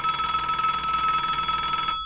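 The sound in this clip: A telephone rings for an incoming call with a bright, steady electronic trill. It runs unbroken for about two seconds, then cuts off.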